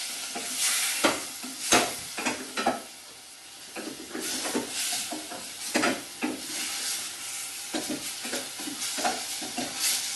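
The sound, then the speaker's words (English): Meat browning with spices in a pan gives a steady sizzle and hiss, broken by a series of sharp scraping and clattering strokes as it is stirred vigorously. No one speaks. “Give that a really good stir.”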